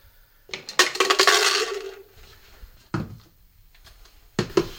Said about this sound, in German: während er seinen fast täglichen Mix aus Protein- und Nahrungsergänzungsmitteln mischt